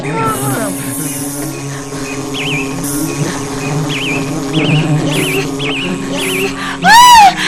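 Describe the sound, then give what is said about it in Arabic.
A wasp buzzing as it sits inside a beehive: a droning hum with repeated wavering chirps over a sustained tonal bed, ending in a loud swooping burst. “فدخلت نونا يا أصدقاء إلى الخلية بحذر، وعند دخولها إلى الخلية رأت الدبور وهو يجلس بغرور”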